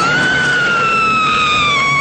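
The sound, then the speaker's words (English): A woman in a movie screams in one long, loud, sustained high cry. Its pitch sags slightly as it is held, and it stands alone with no talk. “we had a good screamer in this movie. This lady could scream. Oh, yeah. Yes. Yeah. In fact, all the women could scream. They were all big screamers. And here is one.”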